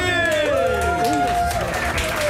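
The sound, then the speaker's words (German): Audience applause for a man from a music editorial team, a dense, steady wash of clapping with some crowd voices that holds loud and even throughout. “Und Ladies and Gentlemen, ein Mann, der unbedingt mal einen Riesenapplaus braucht”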